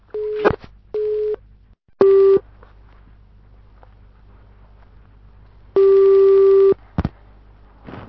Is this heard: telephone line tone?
yes